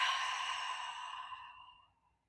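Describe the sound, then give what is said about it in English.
Audible exhale during a breathing exercise: a single soft, airy breath, faint throughout, gradually tapering away over about two seconds. “I want you just to hear the breath, making an audible exhale. Inhale, hold up the top. Exhale, think the word release, and hear your breath.”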